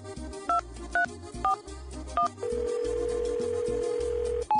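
A telephone redials a number: four short keypad tones sound in quick succession, then a long steady tone holds for about two seconds before another brief tone, all over a low rhythmic background.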